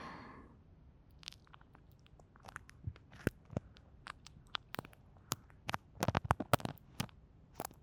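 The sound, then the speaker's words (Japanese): Crisp crackling and rubbing sounds of an ear massage on the outer ear: many irregular dry clicks and crunches, quiet at first, then growing denser and sharper toward the end, with no talking. “では最後にお客様のお耳をマッサージさせていただきますね。”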